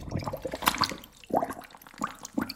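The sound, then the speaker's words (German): Water runs into a plugged washbasin, splashing and gurgling in a few uneven bursts separated by brief quieter gaps. “Wasser ins Waschbecken. Ein Mini-Swimmingpool.”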